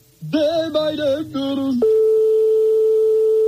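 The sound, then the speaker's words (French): An unanswered telephone ringing tone on a call to a private home sounds as one steady, single-pitched tone that starts after a short burst of other tonal sound and holds to the end. “comme on est chez des particuliers, forcément, ça sonne dans le vide longtemps et ça peut tomber sur un répondeur.”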